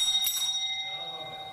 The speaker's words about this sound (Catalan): Que al cap d'uns 7 minuts d'estar conversant amb la persona que t'ha tocat, sonarà una mena de campana com aquesta.